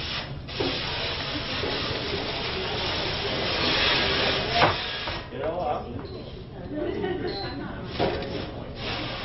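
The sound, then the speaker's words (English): Water runs over dishes as soap is rinsed off, a steady, broad rushing hiss that continues throughout, with people talking under the flow. “Make sure all the soap's in. Get it in the bottom one more time. I'm going to rinse these.”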